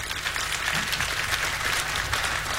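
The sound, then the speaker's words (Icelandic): Audience applause at a birthday tribute concert, a steady, even wash of many clapping hands at a moderate level with no talk over it. “Já, það má alveg klappa fyrir því.”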